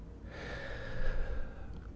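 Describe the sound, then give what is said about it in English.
A deep breath taken slowly: one long, airy, steady rush of breath lasting about two seconds, soft and with no other sound. “Nice deep breath.”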